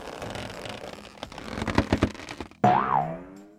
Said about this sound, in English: Mighty Mila just transformed into a giant Super Ball? Wow, she can really bounce.